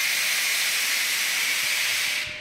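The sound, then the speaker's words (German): Carbonation forming in beer at a small village brewery: a loud, steady, airy hiss like escaping gas that holds level throughout and drops away in the final moment. “Da bildet sich schon die Kohlensäure.”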